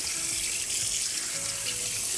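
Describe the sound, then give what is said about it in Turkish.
Tap water running steadily while someone washes their hands at a kitchen sink, a continuous splashing hiss at even volume with no talk over it. “Sen istersen ellerini yıka”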